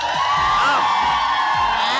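A live audience at a women's event in Orlando cheers and shouts: continuous loud crowd noise with high whoops and yells throughout.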